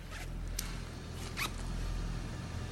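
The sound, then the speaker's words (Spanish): Faint zipper being pulled down: a few quick, soft rasping strokes, the clearest near the middle, over a steady low hum. “Te baja la cremallera.”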